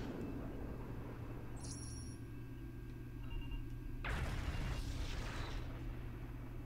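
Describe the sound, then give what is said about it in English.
Phaser fire rings out between starships in the video game Star Trek Legacy as the Excelsior fires on a Constitution-class ship: a faint, steady droning hum gives way to a sudden harsh roaring burst that sustains to the end. “I want to see the Excelsior open fire on the Constitution class, and wow, look at the length of that phaser burst. Incredible.”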